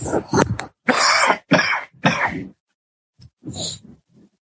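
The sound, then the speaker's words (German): Harsh throat clearing and coughing from a person with a cold: a run of loud, rasping bursts in quick succession, then after a short pause a few quieter, shorter ones. “Jetzt muss ich mich einmal wirklich räuspern, weil die Erkältung drückt so sehr.”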